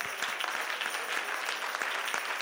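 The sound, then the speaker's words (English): A church audience claps hands in steady rhythm during a lively worship service, sharp and evenly spaced beats over a dense wash of voices and clapping, loud throughout. “Come on, everybody, clap your hands to the”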